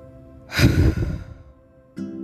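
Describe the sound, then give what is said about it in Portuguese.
A deep breath drawn in through the nose and blown out through the mouth in one go, done as a morning breathing exercise. One strong, breathy rush of air fades out, and a voice starts right after. “Você vai sugar o ar e aí solta de uma vez.”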